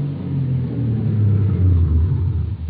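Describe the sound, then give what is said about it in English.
A car driving through town, heard as a steady, low engine rumble that holds at an even level without pauses, with no talk. “got Anthony Ross out in my custody, and drove him to the north side of town”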